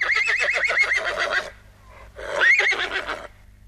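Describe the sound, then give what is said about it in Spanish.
A horse whinnies in a farm-animal sound game for children. Two long, shrill neighs with a quavering, wavering pitch are separated by a short quiet gap, and the second neigh is slightly shorter than the first. “¡Caballo!”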